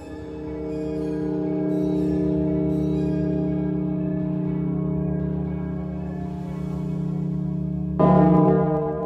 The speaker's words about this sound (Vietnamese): Vừa chạy đến một lối rẽ thì vang lên 3 tiếng chuông.